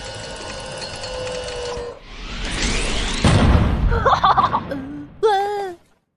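A cannon firing on a TV: a rushing whoosh builds into a deep, loud boom, followed by short squeaky, cartoonish tones.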